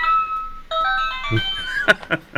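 A question block toy plays its sound: a bright electronic jingle of sustained high tones, followed by a few sharp clicks.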